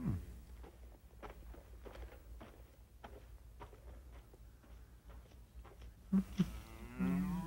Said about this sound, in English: Was he mooing?